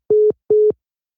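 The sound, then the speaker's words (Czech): A telephone line tone after a dropped call: two short, steady mid-pitched beeps of equal length, separated by a brief gap, then silence, with no voices. “Tak se nám přerušil hovor po hodině.”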